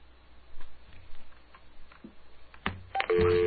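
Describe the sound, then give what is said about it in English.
A telephone dials a call to a payphone: soft ticks and taps build up, then clear steady dialing tones ring out loudly near the end, with no talking. “All right, we're going to call up a nice little payphone.”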